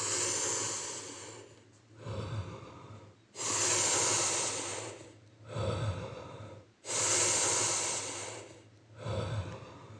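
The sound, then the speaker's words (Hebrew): Slow, loud inhales and exhales through the nose during a guided breathing exercise, with long hissing breaths alternating in a steady rhythm over about three cycles and no talk. “שאיפה, נשיפה.”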